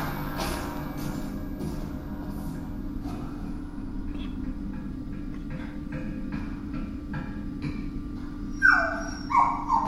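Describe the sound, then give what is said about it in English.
Dog whimpering and yipping: a few sharp, high-pitched yelps burst out near the end over a steady low hum. “Dog. Good boy. Dog. Good boy. What does he want?”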